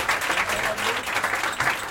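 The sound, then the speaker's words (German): Audience applause at a live event, a crowd clapping in a moderate, steady wash with a slight swelling and easing of loudness. “Und deswegen, weil die alles organisiert und alles immer macht und immer für uns war, ein riesen Applaus. Für Maria.”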